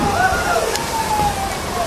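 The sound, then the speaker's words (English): Rain falls during an outing, making a steady watery hiss and patter while voices talk over it. “Oh, man, this rain sucks.”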